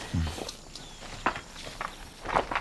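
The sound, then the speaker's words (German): Footsteps walk around the outside of a house, a few soft, irregular steps over a quiet background. “Gehen wir doch mal ein Stück ums Haus herum.”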